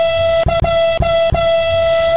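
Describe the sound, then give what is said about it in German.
A car horn blares in a long, loud, steady tone, broken by four very brief gaps, with no talk over it. “da können wir doch hupen”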